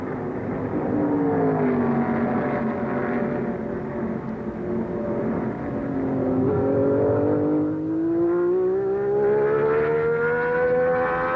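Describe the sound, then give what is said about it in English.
A fire-red Ferrari race car accelerates toward the first turn at the 1971 Questor Grand Prix. Its engine gives a loud, continuous roar that sags in pitch and then climbs steadily toward the end. “Building speed towards turn one, Jackie Eats in the fire-red Ferrari number 4 overwhelms the front runners and slips by on the inside and into the lead.”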